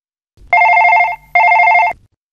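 A telephone rings on an outgoing call, giving two long, loud bursts of a steady warbling tone separated by a short gap, with no voices.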